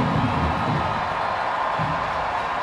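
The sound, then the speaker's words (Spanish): A stadium crowd at a football match cheers and applauds a player leaving the pitch, a dense, continuous roar that holds at a steady level throughout. “Y la gente le aplaude. Estamos recuperando a Sony, señoras y señores. Escuche usted la algarabía del público solo porque va a salir del terreno de juego.”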